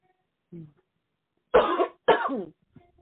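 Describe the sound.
Coughing from a tickling throat: a faint short cough, then two strong, harsh coughs in close succession, with a small trailing sound at the end.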